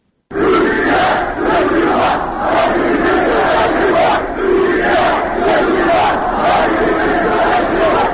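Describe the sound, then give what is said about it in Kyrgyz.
Demonstrators chant slogans outside the Russian consulate in Istanbul in protest at Moscow sending troops into Crimea. The loud massed voices rise and fall in rhythmic waves and hold without a break for the whole stretch. “8 мартта Стамбулдагы орус консулдугу астында Москванын Крымга аскер киргизгенине нааразылык билдиришти жана Түркия, өз агайындарыңа жардам бер, биз душманга каршы ийиндеш турабыз деп ураан чакырышты.”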